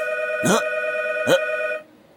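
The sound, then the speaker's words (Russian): Telephone ringing in an apartment: a steady electronic ringing tone broken by two short sharper pulses, then cutting off shortly before the end and leaving near silence. “Пожалуйста, сейчас в нашей квартире зазвонит телефон.”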